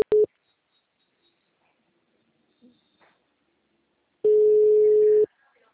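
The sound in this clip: Ringback tone on an outgoing telephone call: a steady mid-pitched beep, cut off briefly at the start, then one full tone of about a second after a long silence.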